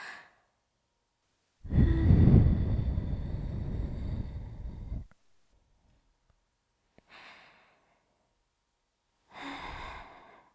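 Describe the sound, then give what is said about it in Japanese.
A long, soft breath blown into the ear to finish an ear cleaning gives an airy rush lasting about three seconds, followed by a faint short puff and then another gentle breath. “最後は仕上げの息吹きをせーの”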